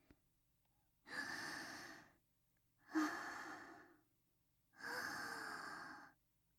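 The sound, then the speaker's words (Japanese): Three slow, deep breaths, each drawn for about a second with quiet pauses between, soft and airy with no talking. “ほら、深呼吸して。”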